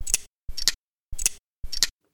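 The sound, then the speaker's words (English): Four slowed-down snaps of vice grips, evenly spaced and each sharp yet deepened and enlarged by the slowing, with silence between them. “Because they make this really positive, satisfying kind of snap. And once again, slow down. Sounds bigger.”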